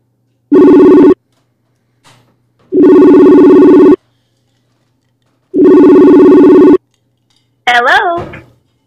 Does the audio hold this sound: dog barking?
no

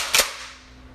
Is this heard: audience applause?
no

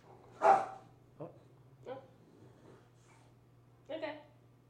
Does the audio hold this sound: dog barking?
yes

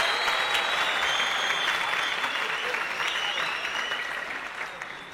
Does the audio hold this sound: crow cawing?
no

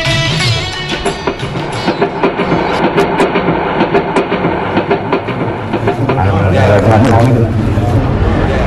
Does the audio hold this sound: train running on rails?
yes

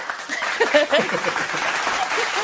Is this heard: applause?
yes

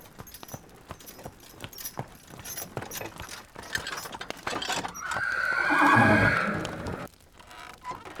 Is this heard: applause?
no

